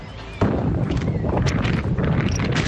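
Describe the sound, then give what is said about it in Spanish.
Strong storm wind at the A Coruña breakwater during gusts near 100 km/h, a loud, roaring rush that bursts in abruptly and then stays a steady, buffeting blast to the end. “Así suena el viento en el dique coruñés.”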